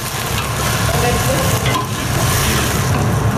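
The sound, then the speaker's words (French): Onions fry in a pan for a ravioli filling, giving a loud, continuous sizzle with faint stirring, steady from start to finish. “là, on fait revenir des oignons pour préparer la farce, puis on ajoutera les poivrons verts et les poivrons rouges”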